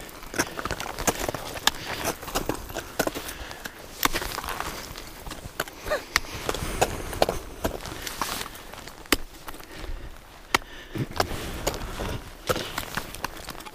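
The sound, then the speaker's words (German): An ice axe striking soft ice while ice climbing at the Silvretta-Bielerhöhe: a steady series of dull, irregular thuds and crunching impacts mixed with rustling gear noise. “Da merkst du jetzt auch, das Eis wird schon weicher, gell? da geht es viel leichter zum Schlagen. So ein Soft-Eis sagt man dazu.”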